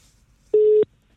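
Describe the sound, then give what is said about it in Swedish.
A telephone call rings out to a radio listener with a single steady, mid-pitched ringback tone lasting about a third of a second, clean and alone against near silence. “Vi har någon som jag tänkte vi skulle ringa upp här nu.”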